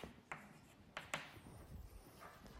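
A few short, scratchy strokes of handwriting as a mathematical formula is written out, faint against quiet room noise.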